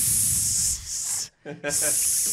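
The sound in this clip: A voice imitates a crowd of people hissing: long, sustained breathy hisses interrupted once by a brief voiced sound.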